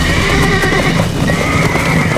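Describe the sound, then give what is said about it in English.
Captured horses neigh and gallop as they are driven into a hard run, with steady, loud hoofbeats under repeated whinnies throughout. “The Tennesseans began putting the captured horses into a run, but it was futile.”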